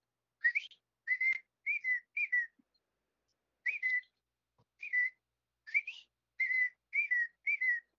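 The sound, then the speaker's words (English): A person whistles in imitation of a birdcall: many short, high, chirping notes in quick phrases, split into two groups by a brief pause, with no talk. “That sounded goddamn convincing out. As far as a bird. Like, if you told me that was a bird, I would have bought it.”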